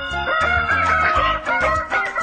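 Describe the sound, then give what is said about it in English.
A rooster crows loudly with a raspy, strongly harmonic, warbling call, broken into several linked segments over about two seconds. “Yeah, I'll wake you up. Woohoo! Rooster's in the studio.”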